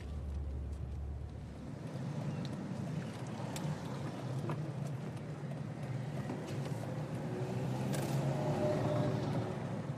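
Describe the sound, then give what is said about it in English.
A car drives through heavy rain on the road to Enniskillen. A low, steady engine and road rumble runs under a dense hiss of rain, with occasional faint ticks, at an even level throughout and with no speech. “The rain is so bad outside. I'm now going to drive to Enniskillen”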